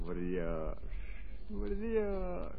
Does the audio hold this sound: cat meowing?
no